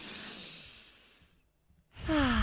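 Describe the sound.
A deep breath is drawn and released during a calming breathing exercise, a soft, airy rush that slowly fades. Silence follows, then a voice starts.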